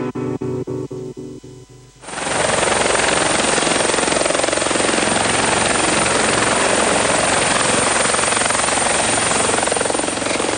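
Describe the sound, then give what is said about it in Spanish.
Helicopter sound effect used as a jingle: a rapid, rhythmic rotor thumping for about two seconds, then a loud, steady roaring whine of engine and blades that holds unbroken to the end. “también disfrutamos la cortina, esa cortina de helicóptero, que es la habitual cortina de nuestro programa.”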